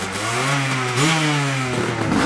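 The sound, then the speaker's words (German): Old motorcycles rev as riders set off, a loud continuous engine note whose pitch jumps up sharply midway, then holds with a rough, clattering edge. No voices are heard. “Aber wer erst einmal sitzt, der sitzt, gibt Gas und verschwindet im nahen Wald.”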